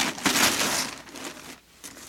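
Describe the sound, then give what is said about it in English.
Paper crinkles and rustles as a parcel is unwrapped after its string is cut. A busy, uneven spell of crackling handling noise eases briefly, then resumes softly. “Open it, Daddy, open it. Okay, okay, lean back so I can cut the string. There it is.”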